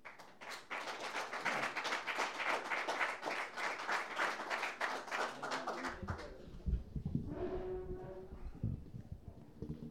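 Audience applause welcoming a band: dense, steady clapping fills roughly the first six seconds, then thins out as quieter tonal sounds take over.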